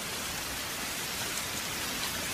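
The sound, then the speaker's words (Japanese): Heavy rain falls as a dense, steady hiss that never lets up. The rain is heard alone, with no talk or other sound. “せっかくだけど、この雨じゃ傘さしても意味ねえか。”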